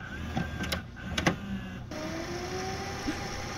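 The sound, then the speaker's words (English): A VHS tape rewinding in a VCR: several mechanical clicks and clunks, then a steady, loud motorized whir that runs on to the end. “VHS rewinding.”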